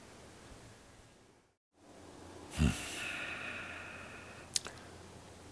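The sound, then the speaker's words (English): A single soft, deep inhale is drawn in the middle of a quiet guided meditation, a brief rush of breath against faint background hiss. “Take that good deep breath.”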